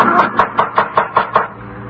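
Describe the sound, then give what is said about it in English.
Knocking at a door comes as a steady, evenly spaced run of about seven hollow knocks, each a sharp rap over a low, constant hum, before the knocks stop. “It was knocking at the door.”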